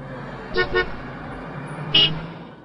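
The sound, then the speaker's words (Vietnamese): Car horns honking on a street: two quick toots close together, then a third, louder honk, all over a low steady rumble of traffic. “Trên đường, tiếng còi ô tô ầm ĩ.”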